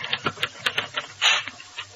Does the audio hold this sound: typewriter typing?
yes